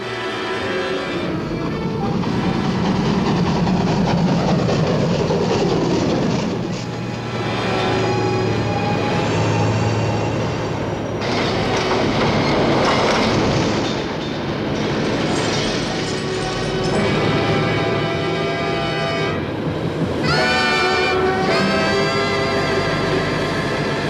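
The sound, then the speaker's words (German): A train moves along railway tracks beyond a tunnel in fog, giving a continuous loud rumble with metallic rattling, clatter and faint whining tones that keep up steadily throughout. “Die 1706 liegt schätzungsweise nur noch 1500 Meter hinter ihm. Jetzt fährt Gudmundsen an. Aber er kommt nicht auf Fahrt.”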